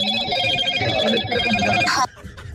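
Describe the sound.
A telephone rings as a call is dialled during a confessions phone-in. A single bright, buzzing ring with steady harmonic tones lasts about two seconds and then cuts off abruptly, leaving faint background noise.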